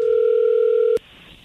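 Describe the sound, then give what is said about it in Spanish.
Telephone dial tone as a call is placed: a loud, steady pure hum lasting about a second, cut off abruptly by a click and followed by near quiet. “no haga ruido, ahí se está marcando.”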